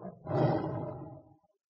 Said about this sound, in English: What's this? It's a tiger.